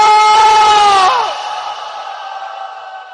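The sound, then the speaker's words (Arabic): A crowd of mourners cries out together for Hussain in one long, loud, sustained wail. The voices fade and trail off toward the end. “صيح وياي وحسينا بحرقة قلب صيح وحسينا بحرقة قلب”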